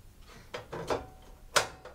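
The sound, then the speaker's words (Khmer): A stove is switched on to heat a pan before brown sugar is added for a syrup. A few faint, short mechanical clicks are heard in otherwise quiet surroundings. “នៅពេលនេះគឺអ្នកខ្ញុំបានបើកភ្លើងដើម្បីឲ្យខ្ទះបានក្តៅបន្តិច”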